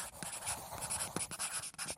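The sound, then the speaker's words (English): Writing by hand, heard as faint, quick scratchy strokes in an irregular rhythm with short pauses between bursts. “Picture it in your mind, then write it down.”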